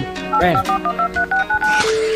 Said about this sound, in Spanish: Te marco el número de la empresa que nos vende los test desde mi móvil, te pongo el altavoz